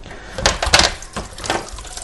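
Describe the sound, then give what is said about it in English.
Tap water running as a chopping board is rinsed in a kitchen, an uneven, hissing splash with a few louder surges and knocks. “Give the chopping board a bit of a rinse off.”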